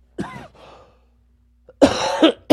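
Harsh, throaty coughing: a few loud bursts, one early, then a pause and a quick cluster near the end, with no talk around them.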